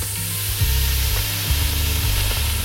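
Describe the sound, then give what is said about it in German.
Bacon fries in a large pot with a dense, steady sizzling crackle that holds at an even loudness throughout, over a low rumbling hum. “Da kommt jetzt rein der Speck. Der wird jetzt erstmal schön ein bisschen angebrutzelt, angebraten.”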